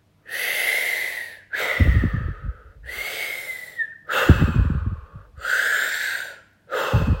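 Deep breathing in and out, with several slow, airy breaths in a steady cycle separated by short pauses. Some exhales carry a rougher, throaty rush beneath the softer hiss of the inhales.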